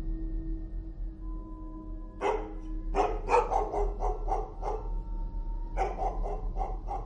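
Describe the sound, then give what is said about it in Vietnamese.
A household dog barks outside in bursts of several sharp barks separated by short pauses, over a low steady hum. “Đó là tiếng con chó nhà nó đang cắn lên nhấm nha nhấm nhặng.”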